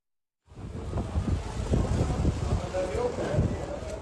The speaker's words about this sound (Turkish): Açlı bir rüzgar var. Ağaçlar yerinden çıkacak sanki.